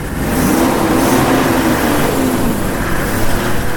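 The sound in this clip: A pick-up truck carrying a police team drives off toward an accident scene in Ouagadougou, its engine giving a loud, steady mid-pitched drone with no voices.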